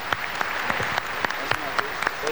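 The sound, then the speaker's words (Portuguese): An audience claps to welcome a visiting priest as a guest. Separate, sharp claps repeat at an uneven rhythm over a low background, and a few faint voices are mixed in. “receba a nossa acolhida, as nossas palmas.”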